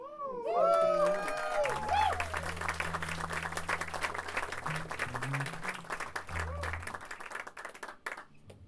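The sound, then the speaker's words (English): Audience applause at a live concert in a club venue in Cologne: dense, steady clapping fills the whole clip, with a low sustained tone underneath and a few tonal cries near the start. “We all clap at the right time.”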